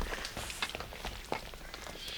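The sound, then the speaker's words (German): Footsteps of a video game character walking along a path toward a canyon road: faint, irregular soft crunches and taps over a steady background hiss. “Ich sehe von hier, dass auch dieser Weg direkt auf die Straße im Canyon führt. So eine Art ah, zweite Zufahrt zu Mr. Pinches Haus. Hm. Und dahin gehe ich jetzt.”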